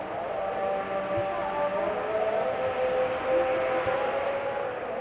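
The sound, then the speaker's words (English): A siren sounds through Addis Ababa, Ethiopia, after midnight, as a sustained, steady wailing tone over a continuous low rumble of city noise. “This is the sound of Addis Ababa, the capital city of Ethiopia. It's after midnight,”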